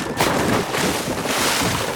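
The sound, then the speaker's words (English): A boat tipping over to port side and hitting the water makes a loud, rushing, splashy wash of noise that runs for about two seconds with a couple of surges. “Everyone brace yourselves. The boat is tipping. We're hitting water.”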